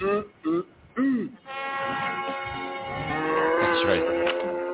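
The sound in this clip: A cow moos in a long, drawn-out, harmonic low that swells and holds for several seconds, following a few short, choppy vocal sounds.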